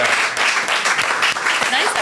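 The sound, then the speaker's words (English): A live audience applauds two comedians, producing a loud, dense burst of clapping with rapid overlapping hand strikes that keeps a steady level for the whole stretch. “A round of applause, please, for Chris and Rosie Ramsey.”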